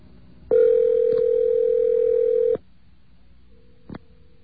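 A telephone rings out on a call that goes unanswered. One long steady electronic ring tone lasts about two seconds, then a fainter, shorter tone and a brief click follow in near silence.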